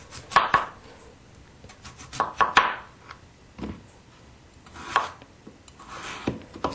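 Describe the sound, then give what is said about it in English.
Knife chopping a peeled potato into small chunks for mashing: several irregular, soft chopping knocks with some scraping between them, fairly quiet and without voices. “We have our peeled potato. Now we're going to cut it. And since we're going to mash them, you don't have to worry about cutting it perfectly. We just want to cut it into small chunks.”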